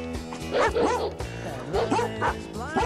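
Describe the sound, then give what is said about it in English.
Dogs howl and yip along with a pop song. Their wavering, rising and falling howls and short yips repeat over the steady music throughout. “There they are, the dogs are singing along”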